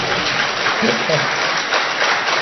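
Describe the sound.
Audience applause, a continuous dense patter of many hands clapping at a steady level, with a brief voice rising out of it near the middle.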